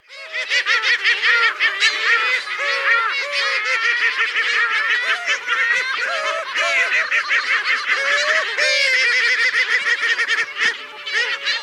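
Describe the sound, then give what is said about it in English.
Heermann's gulls calling in a dense, continuous run of rapid, nasal cackling notes with a laughing quality, loud and without any talk. “It's a Heerman's gull.”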